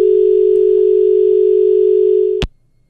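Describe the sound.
A telephone line tone sounds after a call cuts off: one steady, loud, unbroken tone at a single pitch that ends abruptly with a click, followed by near silence.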